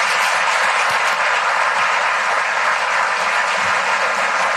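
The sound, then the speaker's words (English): Dense, steady applause from the audience at an international business and investment forum, continuous and evenly loud for the whole stretch with no voices over it. “So let's give them a big round of applause.”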